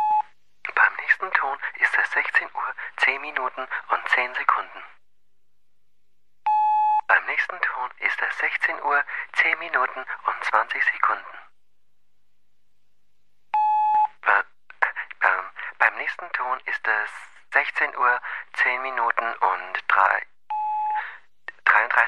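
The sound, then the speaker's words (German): A German telephone speaking-clock time announcement: a recorded voice calls out the time in steady phrases, each followed by a short electronic beep, repeating over several cycles. “Hören wir mal, ob es die Zeitansage heute immer noch gibt.”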